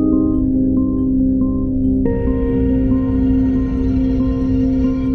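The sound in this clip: Instrumental song composed for the show Marsfall, with a steady low drone and soft higher notes. A fuller, brighter layer enters about two seconds in and holds to the end, with no voices.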